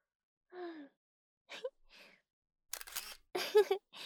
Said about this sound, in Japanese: 記念撮影です。いい写真が撮れました。